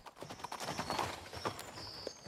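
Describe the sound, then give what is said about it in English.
Horse hooves clip-clop in a steady, rhythmic patter as a rider arrives on horseback. The hoof beats are fairly quiet and there is no talk. “A man arrives on horseback.”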